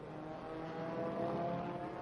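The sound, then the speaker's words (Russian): Racing car engines roar over a race track in a steady, continuous drone with tonal engine whine layered on top, holding an even loudness throughout with no voices. “Треск моторов пулеметной дробью завис над трассой.”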